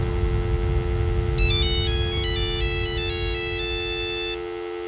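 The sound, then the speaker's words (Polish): A telephone ringtone sounds while a guest is being called: a high, bright electronic melody of quick stepped notes that repeats for a few seconds over a steady low hum. “nasz gość specjalny z jakiegoś powodu nie chce odebrać telefonu. Może spróbujmy jeszcze raz.”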